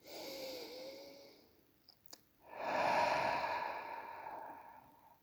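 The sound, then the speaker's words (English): A slow deep breath comes through as two long, soft, airy swells of breathing with a brief click between them, the second swell fuller and longer, with no talking. “So let's take a breath.”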